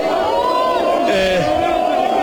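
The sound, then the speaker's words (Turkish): Football fans chanting to greet Mohamed Salah, a loud, sustained crowd chant of drawn-out, wavering tones that continues without a break. “Evet, taraftar bir yandan tezahüratlarla karşılıyor Muhammed Salah'ı ve kendisi şu an bu noktada”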